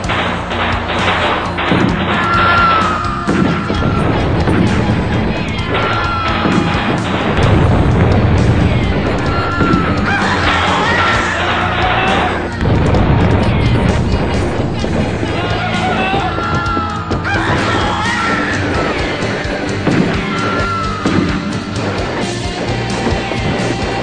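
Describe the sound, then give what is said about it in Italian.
Battle noise of an army attacking a village, with tents set on fire and people shot: loud booms, thuds and bursts over a dense, continuous roar, with voices mixed in throughout. “L'esercito si fiondò sul villaggio con violenza inaudita. Cominciarono a bruciare le tende e sparare a tutti quelli che vedevano.”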